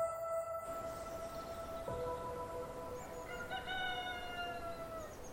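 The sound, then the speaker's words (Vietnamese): Roosters crowing at dawn: a few long, drawn-out harmonic crows that overlap one another, carrying steadily at moderate loudness over a faint background hiss. “Tiếng gà đâu đó gáy lác đác, nghe sao buồn buồn.”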